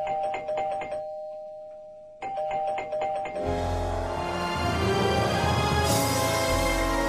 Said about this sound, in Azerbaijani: Qapının zəngi çalındı.